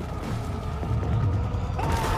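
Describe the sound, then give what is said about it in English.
Ice cracking across a frozen surface: a low, continuous rumble with creaking, groaning textures and a few sharper snaps, sustained and fairly loud throughout. “Cracks in the ice form a trail headed straight for him.”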